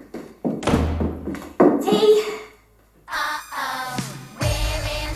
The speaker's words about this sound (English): He slams down an envelope and leaves.